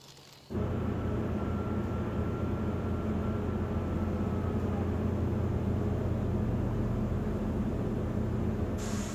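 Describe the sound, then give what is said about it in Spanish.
The cabin of a military aircraft in flight roars with a dense, steady drone that starts abruptly after a brief quieter moment and continues unbroken and loud to the end. “Estamos de camino a Reino Unido en un avión militar.”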